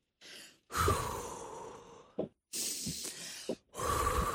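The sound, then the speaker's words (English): A person takes deep, calming breaths to ease anxiety: a few long, audible inhales and exhales, each lasting about a second, with short gaps and brief soft catches of breath between them. “I like to do a little magic breath when I'm feeling very anxious.”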